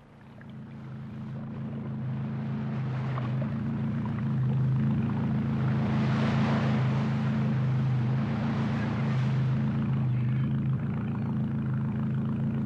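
A boat motor drones steadily on the water as a fishing trip heads out to sea. Its low, even hum rises at the start, then holds with a broad wash of water noise above it, with no talk.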